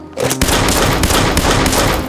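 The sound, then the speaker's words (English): Gunshots from target practice, with a drawn gun fired at a tree: a dense, loud, continuous roar of gunfire that runs the whole clip, with a few sharper cracks standing out. “pausing from time to time to let their ears have a break from the roar of gunshots”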